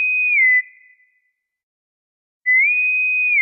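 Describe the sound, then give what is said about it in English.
Bosun's whistle piping a pure, high, loud tone that dips slightly lower and fades out. After a stretch of silence the tone returns, rising back to the same high, steady note. “let's go ahead and blow the bosun's whistle for the news. So here we go. The whistle blows”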